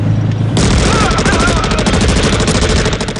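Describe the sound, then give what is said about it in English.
Bursts of Uzi submachine-gun fire from two gunmen in a film shootout: a loud, dense, continuous rattle of rapid shots that breaks in after half a second and carries on to the end. “The two men blow Lawson away. One of them steps forwards and pumps more shots into the dead man's chest.”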